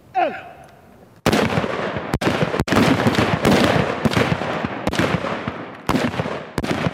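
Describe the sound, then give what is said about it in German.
Rapid gunshots from rifle shooting practice by Gotland home guard troops kneeling, loading and firing fast: many loud, sharp cracks in quick, irregular succession over a dense, continuous rumble. “Hinknien, laden, schießen, möglichst schnell, möglichst präzise.”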